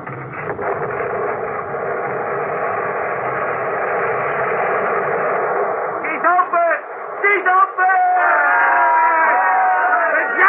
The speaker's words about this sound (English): Because the logs and ice are all frozen together? Yes. It is almost one solid man. You are new out here in Siberia. Are all the men clear? Yes. They are waiting for the blast. Set it off.